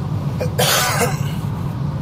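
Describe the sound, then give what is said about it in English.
A single sharp cough bursts out after a faint catch of breath, loud against a steady low hum, with no talk around it. “I'm gonna cough again.”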